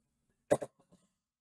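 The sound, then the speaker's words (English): A person coughs twice in quick succession, fairly loud, then makes a couple of much fainter, softer follow-up sounds before silence. “you always hear my voice begin to go out. I start to cough.”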